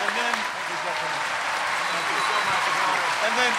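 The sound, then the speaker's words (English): Applause from a live audience for a celebrated actor guest: a steady, full sound of many hands clapping throughout, with voices talking underneath. “Can I please have a huge hand for Mr. Sir Ben Kingsley?”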